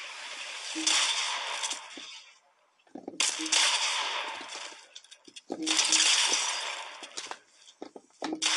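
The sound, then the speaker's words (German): Revolver gunshots in a video game: a few loud, sharp blasts spaced several seconds apart, each trailed by a noisy, shattering tail, with voices talking around them. “Ich versuche dich jetzt mit Revolver zu holen.”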